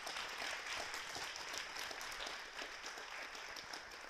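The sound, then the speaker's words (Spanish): Applause at a church service: steady, fairly quiet clapping from a crowd that continues without a break throughout. “Dame un aplauso al Señor.”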